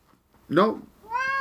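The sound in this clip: A domestic cat meows in a few plaintive, harmonic-rich calls, each one clear and fairly loud against an otherwise quiet background.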